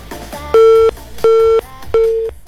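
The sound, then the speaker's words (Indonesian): A telephone busy tone follows a dropped phone call: three steady, mid-pitched tone bursts of equal length with even gaps between them, loud and alone after a few faint clicks. “nampaknya terputus ya pendengar.”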